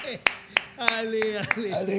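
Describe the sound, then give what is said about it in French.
A few scattered, sharp handclaps from an audience ring out sparsely while a person keeps talking over them. “je vous rappelle que les applaudissements ne sont pas interdits ici, hein?”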